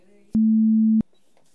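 A card payment terminal gives a single beep during PIN entry, a low, pure, steady electronic tone lasting a little over half a second, loud and clean against near silence.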